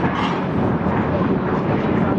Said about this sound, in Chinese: 正在我的头顶上，我们国家第二款隐身战斗机从我的头顶经过。